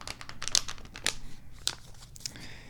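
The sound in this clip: Paper envelope being torn open by hand: a few crisp, crackly tearing and crinkling bursts with rustling paper between them, fairly quiet and with no talk.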